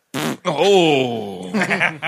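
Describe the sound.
A voice imitates a liquid fart with a wet, wavering, blubbery vocal sputter that slides down in pitch, then breaks into a few short bursts.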